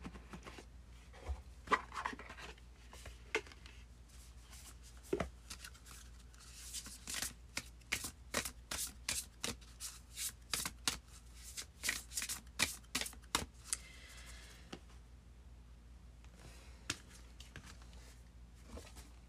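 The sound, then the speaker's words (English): Soft, quick riffling and snapping as a deck of spellcasting oracle cards is shuffled, with scattered rustles at first, then a dense run of many rapid shuffles in the middle before it thins out again. “So let's pull a spellcasting oracle card for you.”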